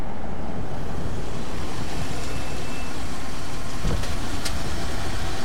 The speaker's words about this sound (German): Seit wann sind denn Taxen schwarz? Ist ein altes Londoner Taxi, ein echtes Schmuckstück.